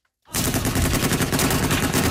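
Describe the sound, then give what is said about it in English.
Heavy machine guns mounted on pickup trucks fire in Yemen, bursting in abruptly after a moment of silence: a loud, dense, continuous hammering of rapid shots with no pause. “Video released by Saudi-backed forces shows fighters and pickup trucks mounted with heavy machine guns firing on unknown targets.”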